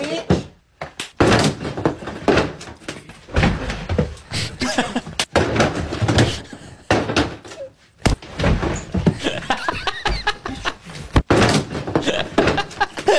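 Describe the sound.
A door is slammed hard and repeatedly, nearly coming off its hinge. Several sharp, loud bangs stand out among ongoing voices and other busy noise.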